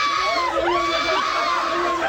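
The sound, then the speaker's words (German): Loud, sustained high-pitched screaming from boy band fans, many shrill overlapping voices forming a dense, continuous wall of shrieks that never drops away. “Achtung, Achtung, Kreischalarm hier bei Hitradio Ohr.”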